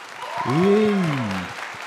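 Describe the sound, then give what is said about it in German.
Audience applause breaks out at a comedy show, steady clapping beneath a prominent drawn-out vocal cheer that rises and then falls in pitch before the clapping carries on alone. “Ja. Schon mehr? Ja, schon höher. Bis jetzt der stärkste Applaus.”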